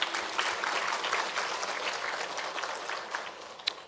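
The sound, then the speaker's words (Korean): Applause from a church audience, offered to God during a Korean service: a dense, sustained patter of many clapping hands with no voices. “우리 하나님께 박수 한번 드립시다.”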